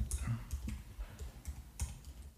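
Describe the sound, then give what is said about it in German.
Typing on a laptop keyboard: a quiet, irregular run of soft key clicks and clacks, with a few sharper strokes standing out. “tippt live im Podcast. Das nervt mich wirklich.”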